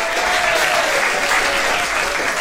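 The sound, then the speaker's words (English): Audience applause rises as a dense, steady wash of clapping from a crowd, sustained at an even, fairly loud level for the whole stretch with no voices standing out. “make I give una a round of applause”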